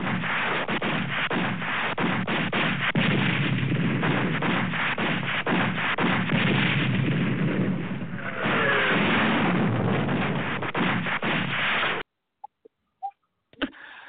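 DJ bomb sound effects of explosions and gunfire pour out as a dense, loud, continuous barrage for about twelve seconds, then stop abruptly, leaving only a few faint clicks.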